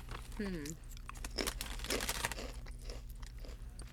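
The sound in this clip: Crunchy chewing of a bacon-wrapped jalapeno popper: repeated crisp bites and mastication at a fairly even level, with a brief voice near the start.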